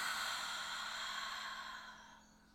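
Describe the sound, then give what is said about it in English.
A deep breath drawn in and released during a guided relaxation exercise, heard as a single long, breathy rush of air on its own that slowly fades toward the end. “let's take a nice deep breath in and release”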